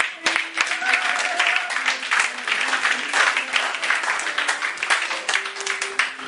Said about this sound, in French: Que Dieu bénisse sa parole. Nous pouvons acclamer cette parole.